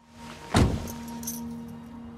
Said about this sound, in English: walks out and gets back into the car